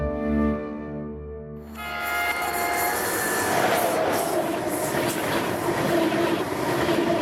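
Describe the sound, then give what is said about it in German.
ICE high-speed train running on rails: a loud, steady roar of wheels on track with high metallic squealing, rising in after a brief tonal hum at the start and holding on to the end. “Mit dem ICE.”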